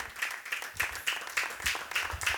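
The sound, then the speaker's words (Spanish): Church audience clapping loudly in praise of the Lord at a women's service, the claps landing in a steady rhythm with brief louder pulses throughout. “Aleluya, palmas fuertes al Señor.”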